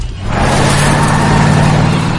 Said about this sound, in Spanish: Ray, nervioso, arranca su coche mientras Mike corre hacia el coche patrulla.